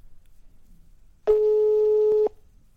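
A telephone ringback tone while calling someone: one steady, mid-pitched beep lasting about a second, sounding alone over a quiet background.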